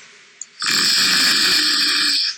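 A pet lets out one loud, raspy snore of under two seconds, airy and hissing, preceded by a brief faint click.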